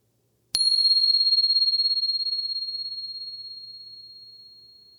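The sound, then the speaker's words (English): A bell is struck once, its bright, high, pure tone ringing out clearly and decaying slowly over several seconds, with no voices. “So just arriving, and here comes the bell.”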